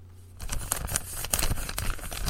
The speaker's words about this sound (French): Et le grand gagnant, donc j'ouvre l'enveloppe